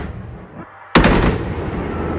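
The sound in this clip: Fireworks launched by pressing the two fire buttons on an electronic firing table: a low rumble, then a sudden sharp blast near one second that opens into a loud, sustained roar lasting to the end.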